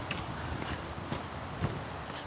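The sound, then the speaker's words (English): Footsteps of a person walking: five soft steps at an even, steady pace over faint background noise. “I can't do this again. So yeah, I'm walking.”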